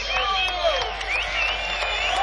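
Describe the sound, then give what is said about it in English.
A stadium crowd applauds and cheers to welcome a performer back after seven years, a continuous roar of clapping with shrill, wavering cries rising and falling above it. “can you make him welcome with a warm applause after 7 years?”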